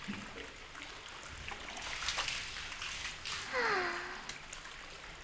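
Water flowing steadily into an outdoor hot spring bath at an inn, a continuous soft rushing wash that swells briefly near the end.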